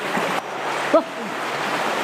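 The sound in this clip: Water in an indoor swimming pool sloshes and splashes continuously as people swim. A brief, sharper splash stands out near the middle.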